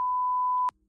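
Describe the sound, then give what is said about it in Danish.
A censor beep sound effect: a single steady, loud, pure mid-pitched tone that holds for about two-thirds of a second, then cuts off abruptly into near silence. “så er det jo klart, at du heller ikke har fundet en beep-lyd. Men det har du nu, ja, måske. Jamen, skal vi lige prøve at høre den?”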